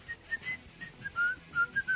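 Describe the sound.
A person whistles a short, faint tune of several notes, some held and some clipped, with the pitch wavering slightly between them.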